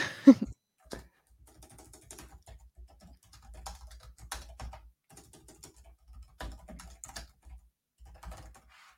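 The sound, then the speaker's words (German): Someone types a chat message on a computer keyboard: faint, irregular clicks come in short bursts separated by brief pauses. “Ich schreibe es immer eben über den Chat.”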